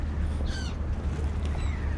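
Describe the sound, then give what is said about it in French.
Seagulls calling at the seashore near a ship boarding area, with the coast of Russia across the water: a few harsh, ringing cries, loudest early on, over a steady low rumble. “on arrive au bord de la mer avec les mouettes et la Russie.”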